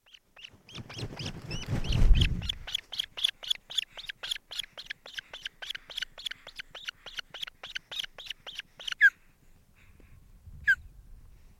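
A mother bird scolds angrily at her nest, repeating a sharp, harsh chirp many times in a fast, even rhythm after a low rumbling thump, then ending with a couple of isolated calls.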